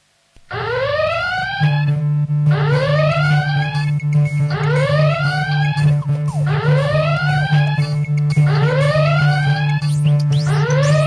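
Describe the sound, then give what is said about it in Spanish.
A general alarm sounds at a nuclear power plant: loud, repeated rising whooping siren tones cycle steadily over a constant low droning hum, with no voices. “Algo raro pasa en la central, hay alarma general.”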